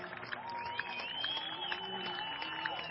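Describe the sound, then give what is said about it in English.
Baseball crowd cheering a towering home run to left field: a faint, steady crowd roar with scattered claps, and a sustained, wavering whistle-like tone gliding above it. “And this crowd has come alive.”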